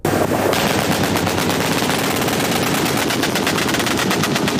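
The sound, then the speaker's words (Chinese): Air-defense guns firing at multiple aerial targets after radar lock, a loud, continuous stream of rapid automatic shots with no pause through the whole clip. “官兵区分高、中、低、远、中、近多批次空中目标，展开火力打击。 靠得住，放！”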